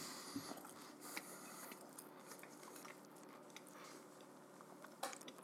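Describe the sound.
Someone takes the first bite of a rolled tortilla crisped on the outside, giving faint, crisp crunches with soft chewing, a few sharper snaps standing out against a quiet background.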